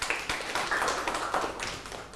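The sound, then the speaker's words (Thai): Students in a classroom applauding a group, with many hands producing dense, irregular clapping that stays fairly even in loudness throughout. “ปรบมือให้กลุ่ม2นะครับ”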